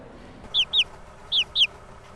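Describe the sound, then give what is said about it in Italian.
Four shrill, downward-sliding cheeps from young chicken chicks, bred and sold around Shkodër in Albania. The cheeps come in two quick pairs over a faint low background hum. “Sono pulcini di Galina, e c'è un mio amico a Scutari che li fa nascere. E poi lui li vende in zona.”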